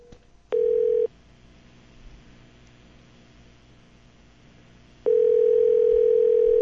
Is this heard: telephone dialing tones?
yes